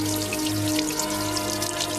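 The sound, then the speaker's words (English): Water flowing from the face of a statue, a steady, continuous wash of splashing and trickling that stays even in level throughout, with no voices. “Water flows like tears from the eye.”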